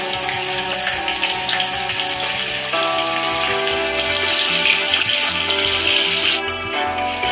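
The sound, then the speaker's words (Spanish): Garlic and large prawns fry in a pan, giving a steady, dense sizzling hiss full of fine crackles that goes on without a break and eases slightly near the end. “freímos los ajos hasta que empiecen a oler bien. Freímos los gambones un poco”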